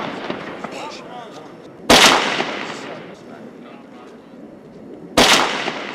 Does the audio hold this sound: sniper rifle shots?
yes